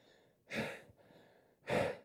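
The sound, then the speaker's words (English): A voice imitates heavy breathing while hiking uphill, two loud, rushing breaths separated by a quieter, drawn-out breath, sounding strained and effortful. “Just breathing like that, yeah, if you ever done it. I mean, I'm doing all I can, and my chest is hurting”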